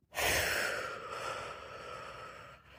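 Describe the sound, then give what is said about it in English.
A held deep breath is released in one long, breathy exhale. It starts loud and fades gradually over about two and a half seconds, with no talk over it. “I may have accidentally let my breath go in 7, but nevertheless, you get the point.”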